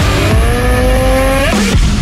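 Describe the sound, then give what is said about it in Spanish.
Engine revving of a CF Moto motorcycle: a loud, steady harmonic drone that holds its pitch, then briefly climbs before dropping away near the end. “En CF Moto encontrarás motocicletas para cada aventura.”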